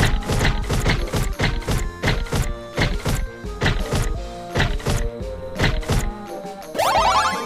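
A six-sided die rolls in a party video game: a fast, steady run of many hollow thuds and clacks, then a bright rising chime-like sweep at the end.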